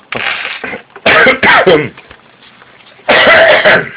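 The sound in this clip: Throat clearing and coughing from people whose throats are irritated by lubricant vapours at work, a few loud, harsh bursts separated by quieter gaps.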